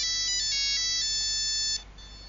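Electronic telephone ringtone playing a bright, high melody of short repeated notes at a steady volume, then stopping abruptly, leaving only faint background hiss.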